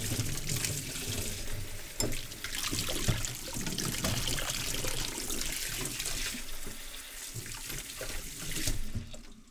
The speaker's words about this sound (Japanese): んじゃあこの洗い物洗ってくれる？